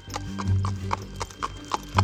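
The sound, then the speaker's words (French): Hooves of a small donkey clip-clopping along a road, making a steady, evenly spaced series of crisp knocks with a light low thud under each step, heard alone. “Assis sur un petit âne, Marie supporte sans se plaindre tous les chaos de la route.”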